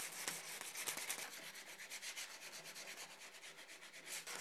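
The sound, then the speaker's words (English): Sandpaper rubbing over a piece of wood to clean up a freshly trimmed edge, heard as faint, steady rasping strokes repeating many times in a quick, even rhythm. “Now we're just going to clean it up with some sandpaper.”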